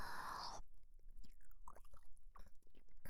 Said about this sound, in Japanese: 今日もあなたの耳おいしそう。少し味見しちゃいます。